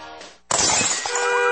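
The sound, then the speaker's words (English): A brick smashes through a window with a sudden loud burst of shattering glass, then a bright tinkling spray of falling shards. A short tonal sound comes just before the crash. “Do you have another brick through your window? Or still unlucky from that broken mirror in your house?”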